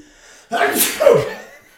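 A single loud sneeze: a short breathy lead-in, then a forceful burst that quickly fades, alone with no talk.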